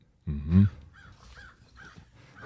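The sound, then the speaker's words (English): A crow caws once, a loud, harsh, hoarse call with a rough buzzy tone, followed by quieter sounds underneath. “Is that a crow? Yes.”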